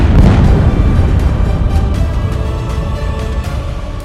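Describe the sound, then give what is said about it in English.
A bomb explosion sound effect gives a heavy, sustained rumbling boom with many crackling bursts running through it. It stays loud throughout and eases off slightly toward the end. “Let's drop some bombs!”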